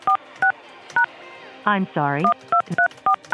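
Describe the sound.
Telephone keypad tones entering a voicemail password: several short, evenly pitched beeps pressed one at a time, with an automated voice speaking briefly between the early and later presses.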